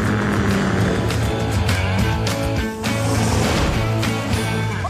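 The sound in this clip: A cartoon aircraft taking off in PAW Patrol after a paint roller is fitted: a steady, loud engine whir and hum that holds a fairly even level throughout.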